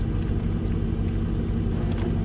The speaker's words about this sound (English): It's okay out there. They're just moving the truck.